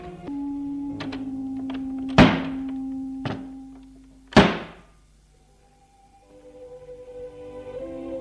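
A door slams on a town street at night: two loud, sharp bangs with a few lighter knocks before and between them, over a steady low tone. The sound then drops to near quiet before a soft noise swells back in.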